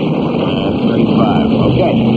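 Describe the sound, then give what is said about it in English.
Aircraft engines running up, on a heavily iced plane being flown to Goose Bay, form a steady, loud droning roar with a few sustained tones. The roar swells slightly partway through and then holds. “run the engines to 2,535 inches”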